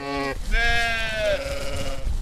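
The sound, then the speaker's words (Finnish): Sheep bleating on a farm of some 700 ewes and lambs near Sievi, Finland: a brief bleat cut short, then a long, loud, wavering bleat that holds steady before trailing off. “Isokummun lammastilalla Kannuksen ja Sievin rajalla on 700 uhta ja karitsaa.”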